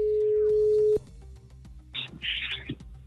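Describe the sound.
A steady, loud telephone line tone holds for about a second while a number is being dialed, then drops away to fainter, brief sounds on the line.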